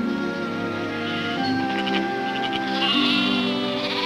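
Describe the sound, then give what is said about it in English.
Sheep in a flock bleat in a large grassy field while an old man and a dog herd them. Several drawn-out, wavering bleats overlap at moderate loudness throughout, with no talking. “In a large grassy field, an old man with a dog herds a flock of sheep.”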